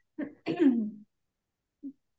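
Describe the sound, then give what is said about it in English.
Throat clearing from someone with hummus stuck in the throat: a short rough burst, then a longer, louder voiced rasp, followed after a pause by one faint brief grunt. “I just ate a little bit of hummus and it's stuck in my throat.”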